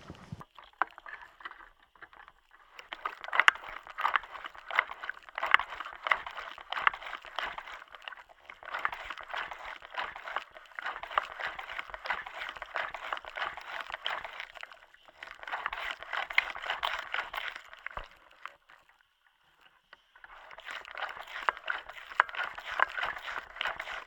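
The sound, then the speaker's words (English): Wet, liquid squishing as a bicycle is bounced up and down, coming in several long bursts of squelching noise separated by short pauses. “Now I'm gonna bounce on the bike. Just gonna bounce it up and down. See what we hear.”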